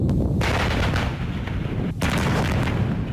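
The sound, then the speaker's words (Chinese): Artillery firing during an army brigade live-fire exercise: dense, loud booming blasts and a continuous low rumble, with a fresh burst of fire at about two seconds. “首轮打击结束，侦察分队立即运用车载光电仪等数字化装备，将炸点信息回传，辅助火炮修正目标。”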